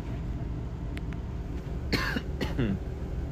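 Coughing after inhaling cigarette smoke: two harsh, raspy bursts that crack out one after the other in the second half, over a steady low background hum.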